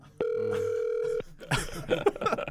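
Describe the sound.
A telephone ringback tone sounds as a call connects: one steady, even burst of ringing tone lasting about a second, followed by a short pause and then busier, uneven noise.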